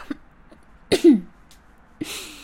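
Coughing and throat clearing to dislodge something caught in the throat. Two sharp rasping bursts come close together, then a pause before another burst that trails into a low voiced hum. Faint small sounds come before them.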